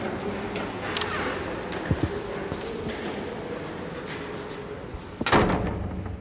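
A heavy oak door at a memorial chamber opens as people step in. A couple of soft knocks come first, then a louder clunk near the end, all over a steady background hiss.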